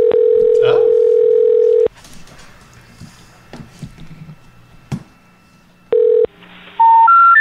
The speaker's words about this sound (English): So I'll just add a 1 at the beginning. See? Yeah, you just have to dial 1. Dial 9 to get an outside line.